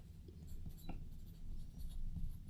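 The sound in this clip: Faint, soft scratching of a pen on paper as a time is jotted down by hand, in a few short strokes.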